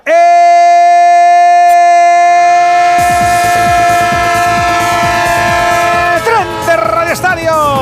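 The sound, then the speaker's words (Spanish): Loud train sound effect: a long, steady horn blast, then rhythmic clattering of rattling wheels on track from about three seconds. Wavering, falling tones near the end. “El tren de Onda Cero, el tren de las 7, el tren de las 6 en Canarias, el tren que te lleva, te trae, el del traqueteo que no marea”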